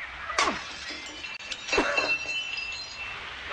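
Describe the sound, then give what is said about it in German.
Glass shatters as a paving stone is thrown through a workshop window: a sharp breaking crash, a second burst of breaking, then scattered glassy tinkles trailing off. “Wir müssen das Werkstattfenster einschlagen und durchs Fenster einsteigen. Von da kommen wir dann in den ersten Stock rauf. Da ist ein Pflasterstör, schmeißen Sie den durch.”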